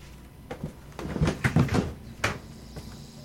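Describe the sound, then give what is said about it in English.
An archive box is pried open by hand, giving faint scraping, rubbing and creaking handling noises. They cluster into a short burst of knocks and scuffs, then a single sharper click after a brief pause. “Okay, so what I'm doing here is that I'm prying the archive open with my fingers.”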